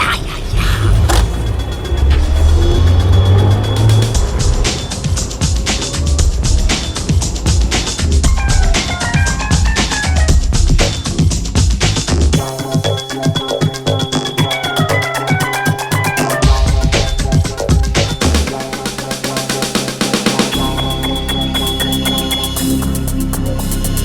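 A car engine roars under full throttle in a fast getaway, loud and sustained for the whole stretch, with a low rumble and other layered mechanical noise.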